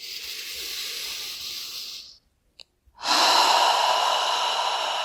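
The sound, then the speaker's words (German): Breathing during a relaxation exercise: a long, steady breath out, a short silent pause with a tiny click, then a louder, airy deep breath in that holds to the end. “Und atme alle Anspannung aus. Und noch einmal einatmen.”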